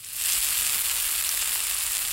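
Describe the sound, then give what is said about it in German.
Bratwurst sausages sizzle in a frying pan, a continuous, even, crackling hiss that stays fairly soft and unbroken throughout. “Lecker, da brutzeln sie in der Pfanne, die evangelischen und die katholischen Bratwürste.”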